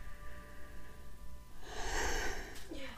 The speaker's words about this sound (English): I had to take a breath because I've been talking for 44 minutes straight now.